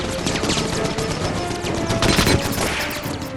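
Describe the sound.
In a video game, a glider fires its separated cannons in dense, rapid bursts of gunfire. The crackle is loud and runs almost without pause, with no talking.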